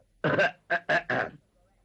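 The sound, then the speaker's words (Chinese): A man's voice imitates coughing and throat clearing in a few short, harsh, loud bursts with nothing else around them, followed by quiet. “张作霖听完这话之后，把眼前的酒杯一推，咳嗽了两声。”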